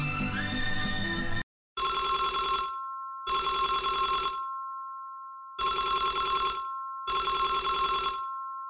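A telephone rings four times for an incoming caller on a call-in quiz, each ring a loud, steady electronic buzzing burst separated by pauses. A short tonal jingle comes before the rings.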